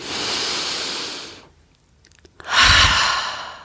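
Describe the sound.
Breathing during a cross-legged seated shoulder-raising exercise: one long, airy breath, a quiet pause with faint small sounds, then a second, stronger and louder breath.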